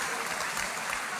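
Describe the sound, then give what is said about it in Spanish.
Women in an audience applauding during a talk about marriage and prayer. A brief, steady burst of clapping, moderately quiet, with no voices above it. “Y sí, las mujeres están aplaudiendo ahorita, ¿ok?”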